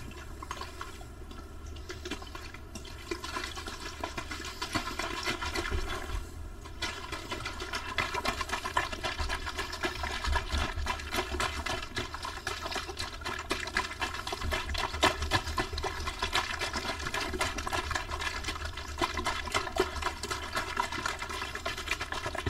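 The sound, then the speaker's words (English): Water sounds made for ASMR, a continuous dense wash of splashing and trickling that holds a steady level throughout, with no talking. “Water ASMR.”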